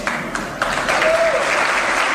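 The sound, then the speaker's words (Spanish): Audience applause after a speech at a private university in Mexico's capital: a few scattered claps open, then the crowd swells into loud, sustained, dense clapping that carries to the end. “Esta noche ha dado un discurso en una universidad privada de la capital, donde se ha llevado el aplauso del público al decir esto.”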